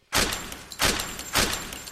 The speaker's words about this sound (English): That is horrible aim! You shot Little Bear!